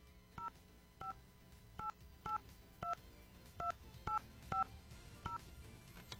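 Touch-tone telephone keypad beeps as a number is dialed: nine short, faint tones at an uneven pace, with no talking.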